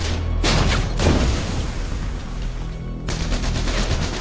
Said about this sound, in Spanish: Hasta que un tanque alemán les dispara desde el extremo sur del bosque. Mientras sus proyectiles explotan por todas partes.